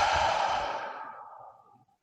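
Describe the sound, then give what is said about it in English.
A long, deep breath let out during a guided mindfulness meditation: one breathy, airy exhale that starts full and fades steadily away over about two seconds, with no talk. “let us complete this practice with three deep breaths together. Breathing in and out.”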